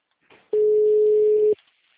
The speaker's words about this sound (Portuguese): Peraí, dai, que eu tô ligando.